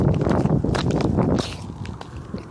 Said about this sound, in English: I can hear cracks in my shoes while I'm walking.